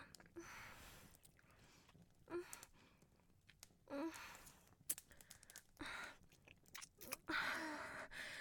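Chewing and biting sounds in a roleplay of eating a human, soft, wet bursts of mastication that come and go between quiet pauses, with sighing breaths mixed in.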